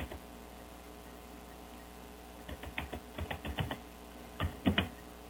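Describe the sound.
Typing on a computer keyboard, faint, begins after a quiet stretch and comes in two short bursts of quick, irregular keystrokes, alone without talk.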